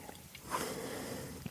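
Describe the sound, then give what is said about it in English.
A heavy breath pushed close into a microphone: a brief snuffling rush of air, faint overall, with soft breathy hiss on either side. “I always find I'm, I like breathe heavily into the mic and I'm sorry. I don't know how to not.”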